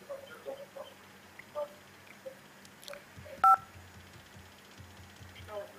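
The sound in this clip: A telephone line tone on a live call-in that has just dropped: one brief, sharp electronic beep midway, amid faint clicks and low line noise.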